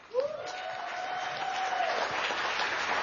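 Audience applause for Pete Buttigieg at a Michigan campaign event for a governor candidate: a steady clatter of clapping that swells slightly, with a long sustained whistle riding over the first two seconds.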